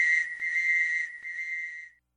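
A whistle blown in a radio public service announcement gives one sustained, shrill, high tone of about two seconds, wavering briefly twice before it stops.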